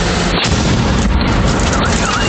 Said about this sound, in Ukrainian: А це вже FPV вгатив біля муніципального автобуса просто у середмісті. Вибуховою хвилею вибило вікна.